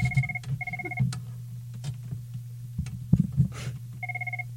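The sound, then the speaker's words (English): A telephone rings for an incoming caller in a few short electronic ring bursts over a steady low hum, with scattered clicks and knocks between the rings. “Oh, it looks like we've got a caller coming in right now.”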